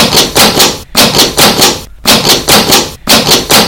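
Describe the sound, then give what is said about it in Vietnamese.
Fists pound hard on a door with both hands: loud, heavy, rapid thuds come in bursts of several blows, separated by a few short pauses. “Gõ to hơn, rồi dùng hết sức mạnh đấm cả hai tay. Cửa kêu lên rầm rầm, nhưng cửa vẫn không mở.”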